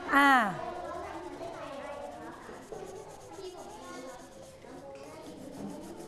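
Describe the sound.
Leather is rubbed and polished with steady, soft scrubbing strokes that continue under a woman's talking, after a brief louder vocal sound at the start.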